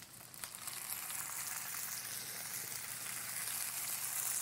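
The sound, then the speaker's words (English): Cold roasted red peppers sizzle and fry in hot oil spread across a pan, a steady, bright crackling hiss that stays even throughout with no voices. “My roasted red peppers are cold, and so I'm going to put them in the pan first so they warm up, and I'm going to spread them all over the pan.”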